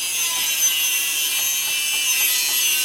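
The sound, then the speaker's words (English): Drilling holes into an overheating machine to cool it down, heard as a continuous harsh, hissy whir concentrated in the high end with a faint grinding texture beneath. It runs unbroken and fairly even for about three seconds with no voices. “It's overheating, so I'm just drilling some holes in to cool it down.”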